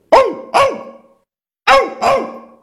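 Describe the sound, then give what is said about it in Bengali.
A human voice imitates a dog's bark with four sharp, barking 'ou' calls, delivered as two quick pairs separated by a short pause. “আপনার জিভটা মনে করুন ঊর্ধ্ব তালুর দিকে রেখে ঔ ঔ উচ্চারণ করলে কুকুরের ডাক আসবে।”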